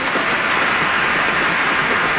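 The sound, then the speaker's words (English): Audience applause at a commemorative event: a thick, unbroken roar of many hands clapping at a steady, loud level throughout. “yes, let's applaud you.”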